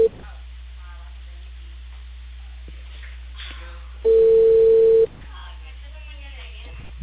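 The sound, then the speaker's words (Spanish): A telephone call tone, one steady beep about a second long, rises clearly over a hissing, humming phone line as a call connects, with faint voices murmuring on the line before and after. “te va a salir tu llamada”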